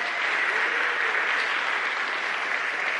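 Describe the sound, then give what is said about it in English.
An audience claps for a couple's diamond wedding anniversary, producing dense, steady applause that holds at an even level for about three seconds with no talk. “And yeah, we rightly clap, don't we?”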